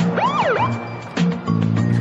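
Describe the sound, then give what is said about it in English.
A police car drives up with a short wailing siren whoop that sweeps up and down, then gives way to steady droning tones. “I love they show the cop drive up.”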